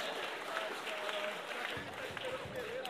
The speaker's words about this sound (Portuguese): Ó, gente, vocês aplaudiram.